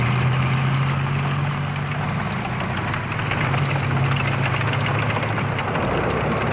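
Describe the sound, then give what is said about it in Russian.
Heavy engine rumble from a car driving along a dirt road into a forest with tanks following behind, a loud, steady low drone that carries unbroken through the whole stretch with no voices over it. “Машина уезжает по грунтовой дороге в лес. За ней едут танки.”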